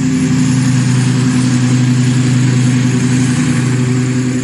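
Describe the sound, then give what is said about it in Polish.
Engine drone of a military unmanned aircraft that sounds like a petrol lawnmower or moped, a constant buzzing hum with strong low harmonics, loud and unbroken throughout. “Różnicą w porównaniu do wielowirnikowca jest dźwięk, który wydaje ten bezzałogowiec. Ten dźwięk jest zbliżony do pracy kosiarki spalinowej w ogródku albo motoroweru.”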